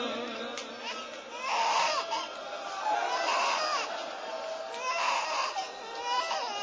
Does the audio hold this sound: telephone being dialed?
no